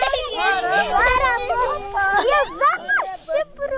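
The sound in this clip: Children play outdoors at a kindergarten on a mountain summer pasture in wind and rain, their lively shouts, squeals and chatter overlapping at high pitch, loud and busy throughout with brief gaps near the end.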